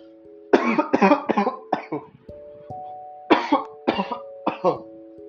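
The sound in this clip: Coughing and throat clearing from an itchy throat: two clusters of short, harsh bursts separated by a brief pause, moderately loud over a faint steady tone.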